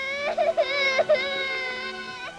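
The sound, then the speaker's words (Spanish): A little girl cries in a 1946 film soundtrack with a sustained, high, wavering wail broken by a few sobbing catches, moderately loud and without other sounds. “Por favor, no llores ya más.”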